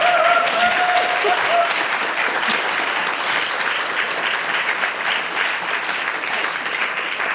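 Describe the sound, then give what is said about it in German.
Audience applause for an all-women panel on stage: sustained, even clapping from many hands that stays steady and fairly loud throughout, easing only slightly. “Sie dürfen jetzt ruhig applaudieren.”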